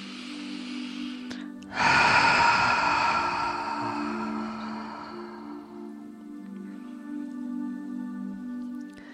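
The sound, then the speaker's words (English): A deep breath drawn in during a relaxation exercise: a long, loud, airy inhale that slowly fades over several seconds above a soft, sustained musical drone. “Take a deep breath.”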